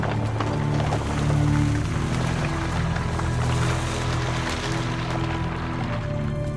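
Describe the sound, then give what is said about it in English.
Water draining into a widening gorge as stone and earth collapse around it: a continuous, dense, rushing roar with a heavy low rumble that stays loud and steady throughout. “Stone and earth collapse into the growing gorge as the water drains down into it.”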